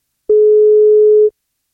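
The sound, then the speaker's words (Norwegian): A telephone line tone while calling someone: a single loud, steady, pure mid-pitched tone lasting about a second, starting and stopping abruptly with silence around it. “I dag skal vi prøve å ringe til Mina Dyan, som fyller 20 år I dag. Dersom hun tar telefonen, så skal det bli kake på.”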